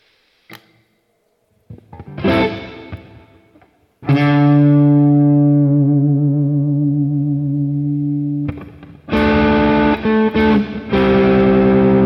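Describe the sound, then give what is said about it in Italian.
Electric guitar played through a multi-effects unit set to crunch distortion presets from its second bank: a couple of short gritty strums, a long ringing chord that wobbles as it fades, then a run of choppy, loud distorted chords. “Andiamo nel banco B, dove ci dovrebbero essere dei crunch, situazioni un po' più cattivelle.”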